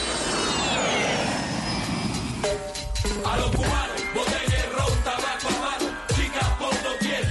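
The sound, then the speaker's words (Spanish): A jet airplane roars loudly and continuously. A high whine sweeps downward over the first seconds, then gives way to a dense, rumbling rush. “cogemos el primer avión”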